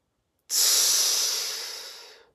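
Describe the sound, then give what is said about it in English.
A single long, deep exhale of breath during a moment of calming down from stress, starting abruptly, loud and airy, then tapering off smoothly over about two seconds with no other sound. “Breathe it out.”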